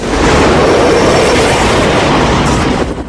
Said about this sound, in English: A freight train rumbles along a track.